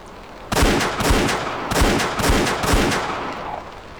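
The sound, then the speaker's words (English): Rifle shots fired in rounds at a shooting practice: a rapid series of sharp, loud cracks with rough, ringing tails that blur together, heard alone without talk. “Five rounds when you're ready. He loaded and quickly fired.”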